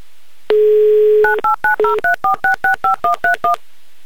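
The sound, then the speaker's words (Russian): A phone call to Maykop is dialed: a steady dial tone sounds for about a second, then gives way to a rapid, evenly spaced string of short touch-tone keypad beeps. “давайте соединяйте нас с Майкопом.”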